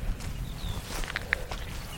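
Footsteps climb a heather-clad hillside path on an island seabird sanctuary, soft crunching steps under a steady rustling background. A thin bird whistle briefly rises above it early on.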